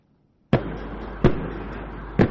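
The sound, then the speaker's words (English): Three sharp tear gas shots fired during a clash between riot police and protesters in the Chilean capital, each a sudden loud bang with a long, sustained echoing tail, spaced irregularly. “Tear gas shots echoed through Chile's capital on Wednesday.”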